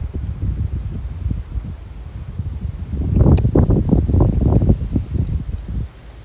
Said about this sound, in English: the wind's blowing